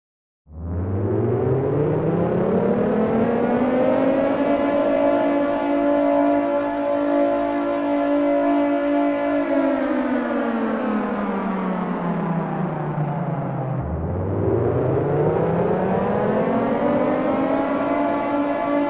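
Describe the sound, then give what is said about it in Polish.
A vehicle engine drones steadily as the car drives home along the road. The continuous harmonic tone sinks slowly in pitch for several seconds, then drops away and climbs again. “Mijamy Lubsko, Żagań, Legnicę, Wrocław i jedziemy do domu.”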